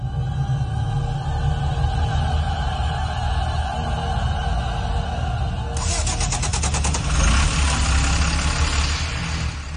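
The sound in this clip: A bus engine idles as the last bus of the night on a heavy rainy evening, holding a steady low rumble; about halfway through, a broad hissing texture joins in and continues to the end.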